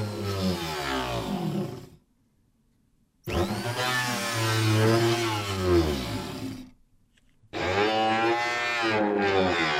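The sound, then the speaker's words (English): An electric grinder working on wood, a loud whining motor with a wavering pitch that runs in three separate bursts, split by two stretches of silence. “it starts off with electric grinders, for example. And same grinder on wood.”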